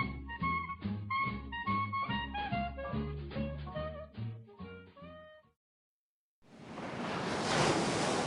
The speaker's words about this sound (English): We're here on a deserted stretch of beach on the Gulf Coast.